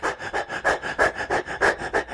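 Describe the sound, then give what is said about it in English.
A voice imitates hyperventilation with many rapid, short breaths, each a breathy hiss of air in a quick, even rhythm that keeps going without pause. “So what does hyperventilation look like? Hyperventilation is more like,”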